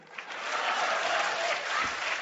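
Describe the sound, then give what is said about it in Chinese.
Warm applause from a crowd: dense, steady clapping that holds at an even, fairly loud level from start to finish. “热烈鼓掌”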